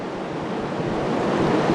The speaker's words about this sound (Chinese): 那此时此刻我们可以看到潮水依然是保持着万马奔腾的气势，在逐渐地向我们的坝身推进。